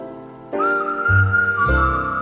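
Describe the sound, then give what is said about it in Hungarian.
A person whistles in imitation of a blackbird over musical accompaniment, holding a steady, clear high tone with a slight dip near the end, supported by low bass notes. “vagy tán egy rigó fütyül. A kedvem felderül, s én visszafütyülök.”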